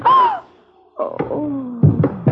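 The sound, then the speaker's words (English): A telephone being brought down on someone's head gives a few dull, sharp thumps in the second half, mixed with strained vocal cries and groans. “All right, I'll drop it right on your head.”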